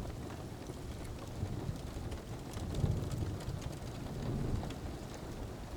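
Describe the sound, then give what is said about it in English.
Steady rain falls in a continuous soft hiss with a low rumbling undertone that swells gently a couple of times. “Each raindrop and each crackle of the logs on the fire sends you sleepier.”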